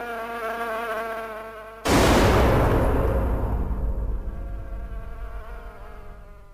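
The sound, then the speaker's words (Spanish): Buzzing of a housefly hovering near a bowl of soup, a steady wavering drone that is abruptly cut by a loud, sustained hiss, which slowly fades away. “Ah, aléjate de la sopa, mosca. Vete. Aléjate de la sopa, mosca. Vete.”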